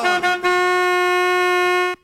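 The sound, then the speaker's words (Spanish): A school bus honks its horn: two short toots, then one long, steady, loud blast in a bright, brassy tone that cuts off sharply. “Transporte escolar que está que llega, que está que pita, pita, pita. Transporte escolar ahí llegando ya.”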